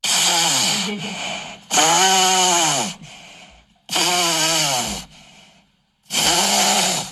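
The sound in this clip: A man snores loudly in a long, rasping run of about four harsh, buzzing snores with rattling breaths between them, rough enough to resemble an engine. No one talks over them.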